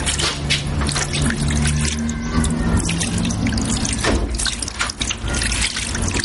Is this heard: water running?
yes

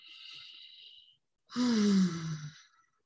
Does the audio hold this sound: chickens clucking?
no

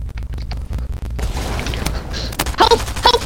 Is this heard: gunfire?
yes

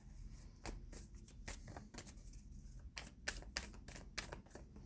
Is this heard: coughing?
no

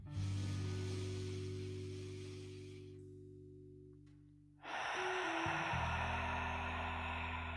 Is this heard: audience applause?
no

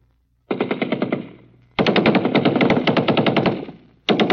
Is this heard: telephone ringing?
no

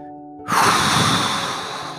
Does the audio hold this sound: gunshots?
no

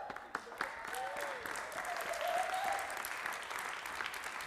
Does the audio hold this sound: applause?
yes

